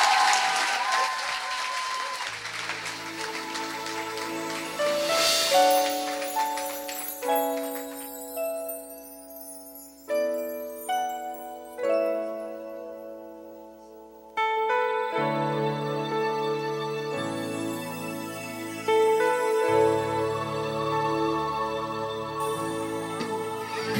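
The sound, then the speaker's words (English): Audience applause welcoming a performing group: steady clapping runs throughout, mixed with sustained, tuneful music. “So please put your hands together and let's welcome the Twinkle Stars!”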